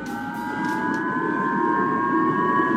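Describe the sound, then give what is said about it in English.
Japanese civil defense warning sirens blare during a North Korean missile launch, a loud, steady, continuous wail of two sustained tones that holds level for the whole stretch, with no voices. “Japan's warning sirens were blaring when the North Korean missile was launched and again passed overhead of Japan.”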